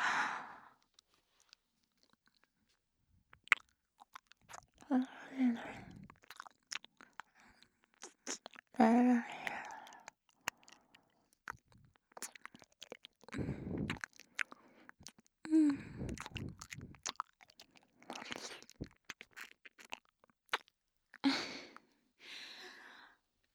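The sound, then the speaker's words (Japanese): ASMR ear-licking mouth sounds at the right ear: sparse, faint wet smacks, licks and clicks scattered between near-silent gaps, with soft breathy sighs in between. “左耳もなめなめしちゃうね。”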